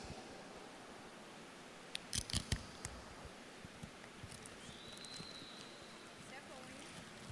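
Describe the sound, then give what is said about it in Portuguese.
A chocolate bar wrapper being torn open: a few sharp crinkles and rips in a quick cluster, followed by faint, sporadic rustling. “Mas eu queria abrir esse chocolate aqui para você.”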